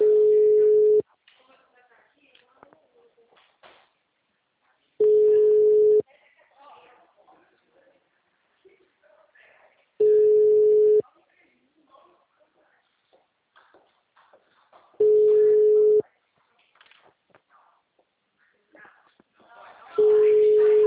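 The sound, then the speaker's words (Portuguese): Telephone busy signal: five steady one-second tones repeat every five seconds, with faint rustling and scraping in the gaps. “Gente, eu não entendo, porque as pessoas... é ligação, acabou. Eu não tá. Tem que desenhar. O número está ocupado.”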